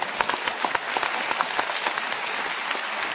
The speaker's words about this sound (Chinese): 其实我也知道啊，鼓掌都是为了于谦老师， 又来了 啊，这谢谢，